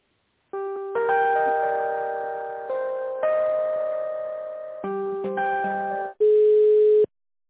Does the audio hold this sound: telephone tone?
yes

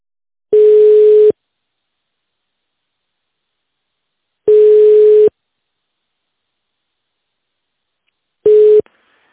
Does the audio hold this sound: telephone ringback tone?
yes

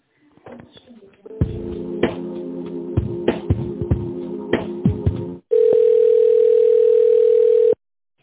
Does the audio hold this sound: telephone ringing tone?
yes

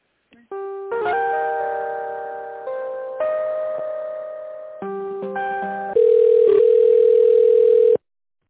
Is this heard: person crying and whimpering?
no

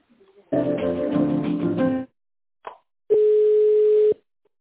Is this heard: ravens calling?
no

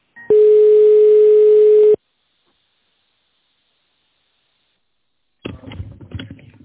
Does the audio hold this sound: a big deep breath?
no

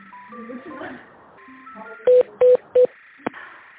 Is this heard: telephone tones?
yes

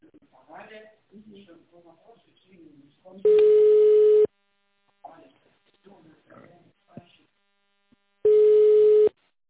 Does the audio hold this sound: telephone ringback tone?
yes

